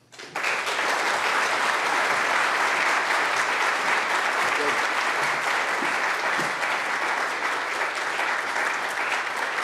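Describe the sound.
An audience applauds to welcome a speaker, a dense, even wash of clapping that starts abruptly and holds at a steady, loud level for the whole stretch.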